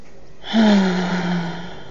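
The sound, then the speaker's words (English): A single deep breath, heard alone: a drawn, gasping intake with a slight voiced tone that swells quickly and then trails off softly. “Big deep breaths.”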